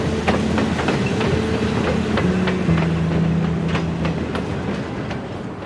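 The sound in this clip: A passenger train pulls out of a station, its wheels clicking in a steady clickety-clack rhythm over rail joints above a continuous low mechanical hum, with no voices.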